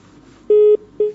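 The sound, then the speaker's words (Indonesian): Telephone line tones sound after a caller's line drops during a live call-in: two flat, mid-pitched beeps with a short gap between them, the second trailing off. “Qadarullah terputus, yeah.”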